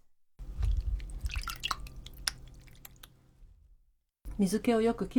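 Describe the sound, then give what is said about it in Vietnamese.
Water drips from hand-held tofu being drained before plating, a run of many small, crisp drips and wet clicks that thin out and fade, followed by a brief voice at the end. “Trước khi đặt vào đĩa thì bạn hãy đặt đậu phụ lên tay để nước chảy bớt ra.”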